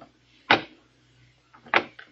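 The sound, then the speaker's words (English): Knocking on a door: a few soft, dull knocks spaced apart, faint and alone in otherwise quiet surroundings. “And then there was a knock on the door.”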